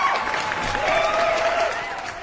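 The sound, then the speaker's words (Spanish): Audience applause welcoming a guest on a live program, a steady, dense patter of many hands at an even level that eases off slightly toward the end. “Edwin, bienvenido. ¿Cómo estás? Te recibimos con un aplauso.”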